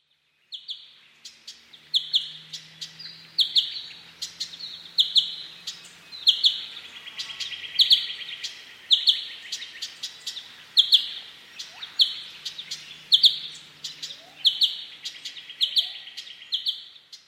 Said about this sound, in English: One of my favourite calls of the New Holland honeyeater is the tink or tick tink sound.